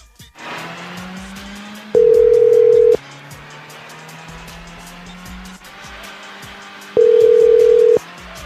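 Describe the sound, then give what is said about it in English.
Ringing tones of an outgoing telephone call to Carmichael Motor Company, an automotive repair and customization shop: two long, steady mid-pitched tones separated by a pause, over a continuous background hum. “let's give them a call.”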